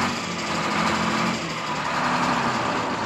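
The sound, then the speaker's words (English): Aircraft engine running on the tarmac ahead of takeoff, a loud, steady, buzzing drone that holds an even level throughout with no voices. “Come on, Joe. Start your motor. We're late for takeoff.”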